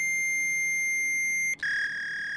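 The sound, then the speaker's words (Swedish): A fax machine emits strange electronic sounds: a steady, pure high tone that cuts out for a moment, then returns as a slightly altered, brighter tone. “Och du hör att faxen börjar göra konstiga ljud ifrån sig.”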